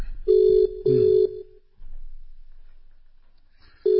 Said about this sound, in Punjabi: ਸੂਬਾ ਸਿੰਘ ਜੀ ਹੁਣਾਂ ਨੂੰ ਕਾਲ ਤੇ ਕਰ ਦਿੱਤੀ ਆ, ਬਿਜੀ ਆਦਮੀ ਨੇ ਉਹ